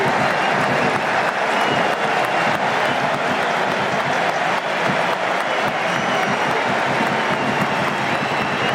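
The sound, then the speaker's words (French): A stadium crowd at a France national team football match gives an ovation to substituted players, a loud, steady roar of applause and cheering that holds evenly from start to finish. “On va écouter l'ovation.”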